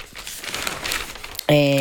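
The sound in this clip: Dry, papery rustling and crinkling as pages of the Corriere della Sera newspaper are turned, lasting about a second and a half before a sudden, loud sustained tone cuts in.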